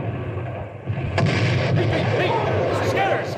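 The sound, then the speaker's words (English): Mortar shells exploding in a wartime battle scene: a couple of sharp blasts cutting through a dense, continuous rumble of gunfire and noise. “Mortar shells, fell short.”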